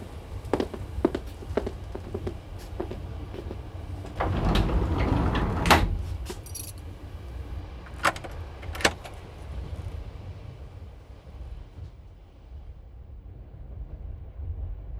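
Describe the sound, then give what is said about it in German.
Keys jangle and a train compartment door is locked aboard a moving train. Scattered clicks lead into a rattling burst midway, then a few sharp clicks over a steady rolling rumble. “Dann schließen wir jetzt hier ab und gehen zurück zu den anderen, in Miss Cartiers Abteil.”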